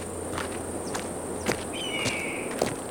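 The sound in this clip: Footsteps of people setting off on a hike: a few evenly spaced, fairly faint steps on the ground, heard alone with no talking.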